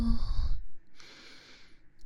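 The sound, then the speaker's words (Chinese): A deep exhale during a guided relaxation breathing exercise: one long, breathy puff of air that gives way to a softer, fading hiss. “闭上眼睛，放轻松，深呼吸哦。呼”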